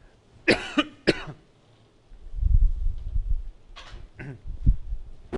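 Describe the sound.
Coughing from something caught in the throat: two sharp, harsh coughs, then a stretch of low rumbling throat noise broken by a few more short coughs and throat-clearing sounds.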